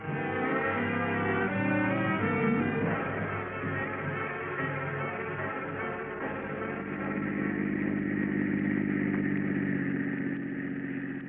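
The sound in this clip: A car engine drones steadily while the car is driven, a humming tone with shifting harmonics and no voices over it.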